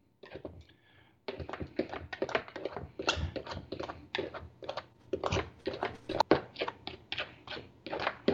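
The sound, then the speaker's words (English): Two knives crisscross as they cut sticks of butter into a dry baking mix, making many quick, faint tapping and scraping clicks in an irregular, busy rhythm with no talk. “And it will actually start, the butter will start getting cut into the dry mix, you know. And I'm just kind of crisscrossing the blades”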